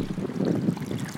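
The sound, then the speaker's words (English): Rushing water of the Colorado River near its headwaters in Rocky Mountain National Park, a dense, continuous low roar with no other sounds. “That is the sound of the Colorado River getting its start here in Rocky Mountain National Park.”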